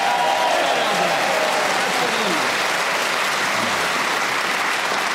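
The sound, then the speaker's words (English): An audience gives a round of applause, a dense, even wash of clapping that holds steady throughout while voices talk over it. “You meant to clap to the end. Is that all that Nicholas is worth to you? A desultory round of applause.”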